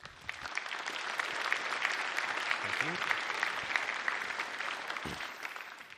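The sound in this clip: An audience claps steadily throughout, welcoming a speaker to the stage at a conference, with the applause easing slightly toward the end.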